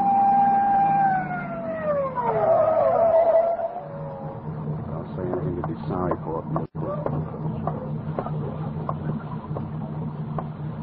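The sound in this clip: A police car siren in a radio drama, heard on wet roads, wails loudly at the start and falls in pitch over a few seconds, then gives way to a steady lower rumble.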